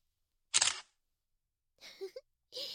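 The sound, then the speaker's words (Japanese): A camera shutter fires once with a crisp, short click, followed by a silent pause and then soft, faint voice sounds. “わかるでしょ、写真撮っちゃいました。”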